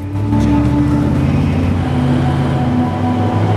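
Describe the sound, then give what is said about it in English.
Army vehicles trundle along a street at night, a steady, heavy low engine rumble that holds an even level throughout. “Ahmad and Jaffa make their way along a street, army vehicles trundling by.”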